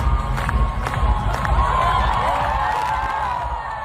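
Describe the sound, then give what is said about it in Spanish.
Crowd cheering and shouting on the steps of the Hungarian Parliament, calling for the new health minister to dance at the new prime minister's inauguration. The dense, steady roar of many voices carries throughout and eases slightly at the end. “El público aquí escuchamos que se lo pedía directamente que bailase, claro, el nuevo ministro de Sanidad en las escalinatas del Parlamento húngaro.”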